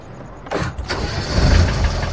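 A car engine starting as the vehicle sets off, the car having a covered rear box. It turns over abruptly, then settles into a low rumble that builds steadily louder and fuller.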